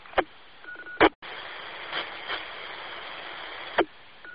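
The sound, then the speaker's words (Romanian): An amateur radio carrier comes through as a steady, band-limited hiss for a few seconds, broken by a few sharp clicks, with faint microphone rustle and no speech. “Cineva din rețeaua Rolling încearcă, s-a auzit un ușor fâșit de microfon, în orice caz, purtătoarea a trecut.”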